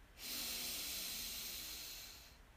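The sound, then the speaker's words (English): One long, steady breath during a guided breathing exercise: a soft airy hiss rises quickly, holds for about two seconds and then tapers away, faint and alone. “So deep breath in and out.”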